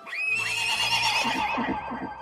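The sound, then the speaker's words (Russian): Horses neighing: one loud, shrill whinny of about two seconds that breaks into a fluttering, trembling tail near the end. “Лошади ржали, поднимаясь на ноги. Ржание болезненно зазвенело в левом ухе доктора.”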